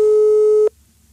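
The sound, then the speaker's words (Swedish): Telephone ringing tone of an outgoing call: one steady, loud electronic tone at a single pitch that lasts just over half a second, then cuts off into near silence. “nu ringer vi upp Rickard Sjöberg och blåser honom”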